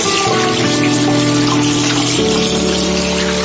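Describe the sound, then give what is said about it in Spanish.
Tap water runs steadily for hand washing, a continuous loud gushing stream with no break and no voices. “Hola, ¿ya te lavaste las manos?”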